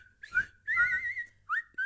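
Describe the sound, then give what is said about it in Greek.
A person whistles a short, high, warbling melody in four bursts with wavering pitch, the longest phrase in the middle, heard alone and fairly soft. “Αχ, τι ώρα που σφυρίζεις. Σαν πουλάκι.”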